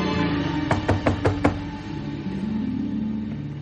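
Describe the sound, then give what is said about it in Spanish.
Five sharp knocks on a house door, evenly spaced and fairly loud over a continuous low background rumble. “Más tarde, Ben llama a la puerta de casa de Maggie.”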